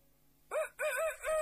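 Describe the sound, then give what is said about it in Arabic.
A rooster crows in the morning, a loud, harmonic call that rises and falls in a few bursts with short breaks between them, heard alone over a quiet background. “الديك في الصباح يصيح في البطاح يقول في انشراح حيا على الفلاح”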